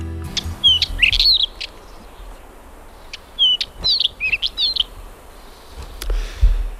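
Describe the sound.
A black wheatear sings short, high, warbling phrases in two bursts, with brief pauses between them over a faint, low background hiss.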